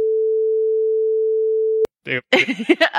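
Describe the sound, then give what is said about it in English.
A censorship bleep: one steady, loud, mid-pitched tone held for nearly two seconds, cutting off sharply before people start talking. “do you want to beep that? I don't know. I almost decided not to. So let's beep all of this.”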